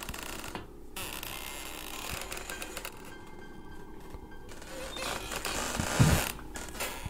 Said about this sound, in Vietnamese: Trước mắt của cô, bụi tre sau bếp vẫn cứ đưa qua đưa lại cót ca cót két.